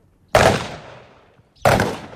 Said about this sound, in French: Face-to-face firing. Each man has got a target about 3 feet away from him.